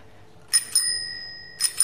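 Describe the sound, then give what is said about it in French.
Bell on a 1960 bicycle ringing in two quick double chimes, bright and metallic, each strike leaving a clear sustained tone that carries through the short gap between the pairs. “Et puis la sonnette marche normalement, puisque l'artisan me l'a mise.”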